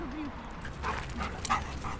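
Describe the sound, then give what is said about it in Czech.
A golden retriever in a dog park in Prague whimpers faintly, with a brief rising whine near the start and a short sharp yip later, all quiet and low in level. “Zlatý retriever, kterého s Julianou venčíme v psím parku v Praze, se jmenuje Brik jako kostička.”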